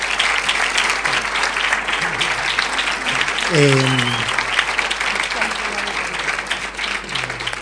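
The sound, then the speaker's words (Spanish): Audience applause at a talk: dense, steady clapping from many hands, loud throughout, with a voice briefly rising over the clapping about halfway through. “y un aplauso por favor, porque es impresionante lo que han hecho.”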